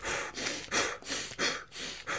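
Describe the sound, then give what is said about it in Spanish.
Rapid, forceful yoga breathing known as breath of fire or kapalabhati: a quick, even series of about seven sharp, hissing breath bursts, strongly pushed out, with no talk over them. “La respiración del fuego, a ver, cuando tú lo haces en yoga, es esto de.”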